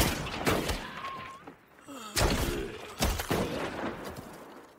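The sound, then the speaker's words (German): Gunfire outside a house as zombies are shot down: several sharp, loud bursts, irregularly spaced, with quieter rumbling and squeaky sounds between them. “Vorsichtig geht er die Treppe des Kellers hoch, um nachzusehen, woher die Schüsse kommen. Er öffnet die Tür und geht langsam in den Gang des Hauses, während die Zombies draußen niedergeschossen werden.”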